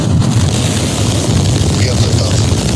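Artemis II rocket engines igniting at launch: a loud, dense, steady roar with a deep low rumble that holds without a break throughout.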